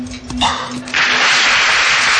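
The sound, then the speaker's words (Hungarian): Applause breaks out as broad, noisy clapping after a brief voice, growing louder and holding as a continuous wash of hand claps to the end. “Megelőlegezzük a tapsot a fiúknak.”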